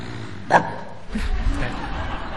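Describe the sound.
A man's voice imitates the low growl of a well-fed, contented dog: a brief vocal burst, then a rough, rumbling growl that carries on for over a second.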